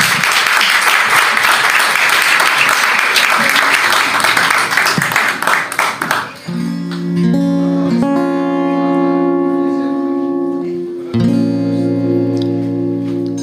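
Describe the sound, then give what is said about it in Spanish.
Loud, dense audience applause greets a group about to perform, then fades after about six seconds as sustained instrumental tones of a song's intro take over. “Un aplauso, por favor.”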